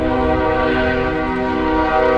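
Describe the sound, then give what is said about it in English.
A freight train used by migrants heading north through Mexico sounds a loud, sustained horn. The steady tone is layered over a deep rumbling roar, and it carries through the whole clip without a break. “That's the freight train nicknamed La Bestia, or The Beast.”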